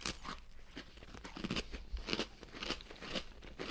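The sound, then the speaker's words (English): Crunching bites into a black cookie with beige cream: many crisp, crackly crunches in an uneven chewing rhythm, fairly faint, with no talking. “we're back to the black cookie with a beige cream. I'm going to do the same thing. I'm going to eat half full and eat half not.”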